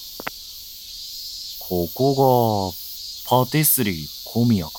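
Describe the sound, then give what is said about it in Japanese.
Cicadas drone on a hot summer afternoon in Tokyo, a steady high buzzing that runs through the whole clip while a voice speaks over it. “東京の昼下がり、鬱陶しいくらいのセミの声をかき分けながら”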